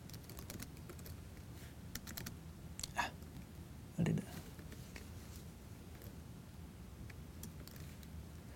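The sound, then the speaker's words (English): Typing on a computer keyboard gives faint, scattered clicks and a couple of sharper key strikes, with people talking throughout. “Okay, I typed the wrong key there, and that's okay.”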